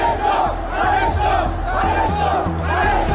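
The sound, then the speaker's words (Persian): Angry Sepahan football fans chant slogans together in a stadium, a loud, massed roar of voices that swells and falls in a steady, rhythmic cadence and never breaks off. “تماشاگران عصبانی اصفهانی که به این درخواستشون احترامی گذاشته نشد در ادامه شعار رضا شاه روحت شاد سر دادن”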